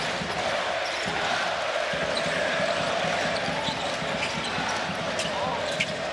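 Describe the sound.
Crowd at a basketball game roars in a dense, steady wall of cheering and chatter, with a ball bouncing faintly underneath.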